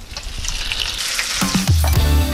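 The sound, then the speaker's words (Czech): Potato-and-quark dumplings fry in lard in a pan, giving a loud, steady sizzle with a constant hissing crackle and no talking. “Ukrajuješ další kousek sádla, máš další pánev. My si ještě na sádle ty taštičky opečeme.”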